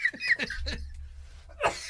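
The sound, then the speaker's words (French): A coughing, choking fit from a person: several quick harsh bursts of coughing in a rapid cluster, a short pause, then one more sharp cough, fairly quiet overall. “je m'en étouffe, pardon, je m'excuse.”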